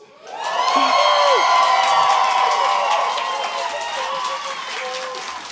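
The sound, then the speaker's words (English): A live audience cheers and whoops loudly, with excited shouts that swell quickly and hold for several seconds before easing slightly toward the end. “But since we happen to have a live audience here, maybe you guys could let us know how did we do.”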